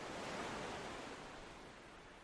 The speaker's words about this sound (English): You are sitting on a beautiful, deserted beach.